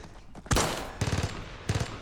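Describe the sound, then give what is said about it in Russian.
Gunshots from a soldier's rifle fired at German troops in a fortress battle: three loud, sharp cracks, each trailing into a rough, rumbling decay. “Стреляет. Немец падает.”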